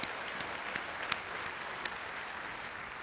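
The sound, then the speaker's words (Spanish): Applause from an audience at a church service: a steady, even clatter of many hands clapping, fairly faint throughout, with no talk over it. “Démosle un fuerte aplauso.”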